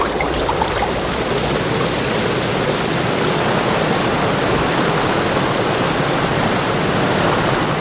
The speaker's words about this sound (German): Die Strömung wird immer reißender.